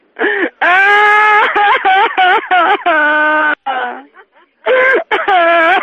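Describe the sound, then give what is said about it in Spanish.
A voice imitates crying on request: a series of wailing, sobbing bursts with wavering pitch, each cut by short gaps, loud and close, with a brief quieter whimper near the middle. “¿nos puede llorar un poco ahora? ¿A esta hora de la mañana? Llore, llore.”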